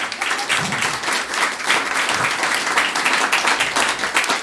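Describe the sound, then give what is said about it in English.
Audience applause at the end of a concert: a dense, steady wash of many hands clapping that holds for several seconds, with no talking over it. “So give it up for you one more time.”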